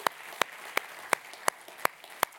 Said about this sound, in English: Can you join me as we give them a big hand for being with us?